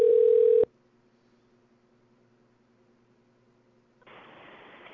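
A steady telephone tone sounds while a number is called back, loud and lasting just over half a second before cutting off. Near silence with a faint low hum follows, then a sudden steady hiss begins near the end.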